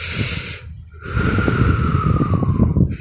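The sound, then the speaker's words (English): A person takes a deep breath in, pauses briefly, then blows it out in a long, loud, breathy exhale with a faint whistle. “Just take a deep breath, blow it out.”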